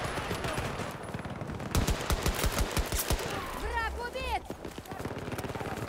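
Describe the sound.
Automatic gunfire in a video game: a rapid burst of many sharp, fast repeated shots that rattles loudly for over a second, set within ongoing game noise.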